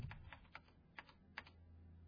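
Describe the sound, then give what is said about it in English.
One-handed typing on a computer keyboard: sparse, irregular key clicks, quiet and unhurried, with uneven gaps between presses and no other sound. “That's what happens when you one-hand type. Did I mention I hate this keyboard?”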